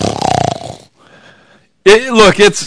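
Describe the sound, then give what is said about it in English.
A voice imitates snoring during a sermon about a worn-out man asleep in a boat: a loud, rattling, pulsing snore, a quiet breathy pause, then a louder throaty, voiced snort that wavers to the end. “It isn't blasphemy to say that Jesus was snoring, okay?”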